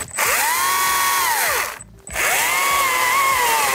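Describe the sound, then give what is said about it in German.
A power saw cutting pieces from a tree trunk while firewood is being prepared. Its motor whines up and down in two long, loud runs, split by a brief pause. “Und schon sind einige Stücke aus dem Stamm gesägt.”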